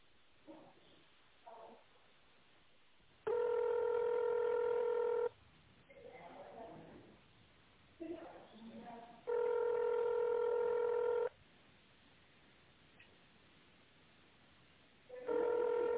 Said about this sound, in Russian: Для переключения на коммерческий отдел наберите 1. Отдел бухгалтерии 2. Отдел корпоративного обслуживания 3.